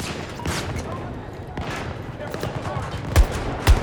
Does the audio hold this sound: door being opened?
no